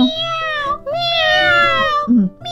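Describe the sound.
A human voice imitates a cat's meow as a vocal exercise, giving a few drawn-out, thin nasal meows with a bright, steady tone, the longest in the middle, then a short lower sound at the end.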